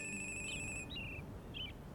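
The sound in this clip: A telephone ringtone, faint electronic melodic tones: a steady held tone followed by a few short, chirping beeps, with no talk.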